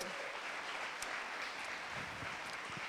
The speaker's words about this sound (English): Another round of applause for Andrea.